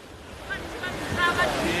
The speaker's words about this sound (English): This is the biggest of a total of 9 remote islands, a simple sandbank in the midst of the ocean, without trees or fresh water.